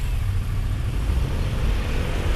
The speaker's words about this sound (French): Oh là, c'est quand même grotesque, là, le trafic ce soir.